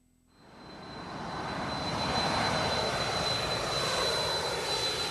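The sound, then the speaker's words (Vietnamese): An aircraft engine roars at Changi Airport, Asia's busiest airport. The loud, broad rushing roar builds over about two seconds and then holds steady, with a thin high whine running through it. “chúng tôi đặt chân xuống Changi, sân bay bận rộn nhất châu Á với nhiều kỳ vọng”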